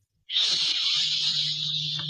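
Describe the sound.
A storyteller's voice imitates an arrow shot from a drawn bow, making one long, sharp, steady hiss that starts abruptly and is heard alone.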